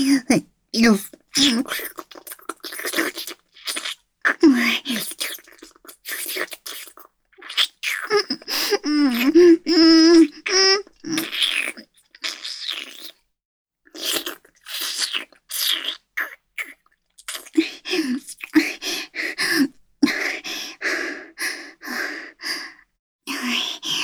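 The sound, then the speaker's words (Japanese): A voice moans and gasps in many short, breathy bursts of sighs and whispered breaths, with a sustained pitched moan partway through and brief silent pauses between bursts. “悪い喘ぎ声。すっごくエッチです。”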